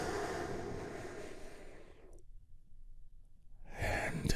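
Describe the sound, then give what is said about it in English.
A big, deep breath taken during a guided relaxation exercise: a long, airy inhale, a stretch of near silence, then a breathy release. The breathing is faint and soft, with no talk. “we begin our healing moment of Zen together by taking a big, deep healing breath all together”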